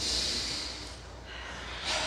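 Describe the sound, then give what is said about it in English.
A group of people take a deep breath together during a prayer gathering: a soft, steady, breathy hiss lasting about two seconds that dips in the middle and swells again at the end, with no talking. “So as a group, let's all take a deep breath.”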